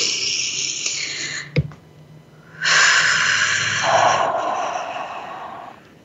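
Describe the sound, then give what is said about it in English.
A deep breath drawn in during a guided pause: after a brief sniff, a long airy rush of inhaled air lasts a few seconds and slowly fades, with no talking. “Let's breathe that in.”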